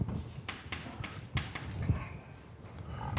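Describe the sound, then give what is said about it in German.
Handwriting during a maths lesson: pen strokes scratch and tap in quick irregular bursts as formulas are written out, fairly soft and uneven in rhythm. “Jo, jetzt sind wir genau am Ende. Ich schreibe noch das zweite hin.”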